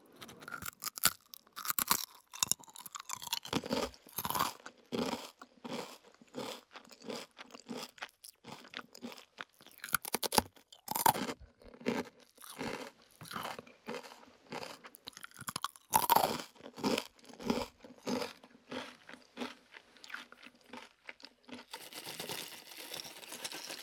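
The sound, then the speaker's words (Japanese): Crunching and chewing of a rice cracker with seaweed kneaded into it: many crisp, brittle crunches in a steady, uneven rhythm that continue for a long stretch without speech. “海苔せんべいだ、これ海苔が練り込んである、海苔の香りがふわっと”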